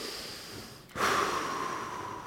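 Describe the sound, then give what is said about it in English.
A deep breath drawn by a preacher mid-sermon: one abrupt inhalation about a second in, swelling into a steady, moderately loud rush of air that holds to the end. “let's take a deep breath”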